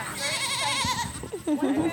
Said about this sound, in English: The 55-acre Great Rock Farm in Georgetown, Massachusetts, has more than 130 goats and twice as many sheep.